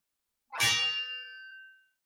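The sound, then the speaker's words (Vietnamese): A sword rings out with a single bright metallic clang. The strike is sharp, then decays into a high, shimmering tone that lingers for over a second, heard alone. “Tiếng kiếm reo ngân vang”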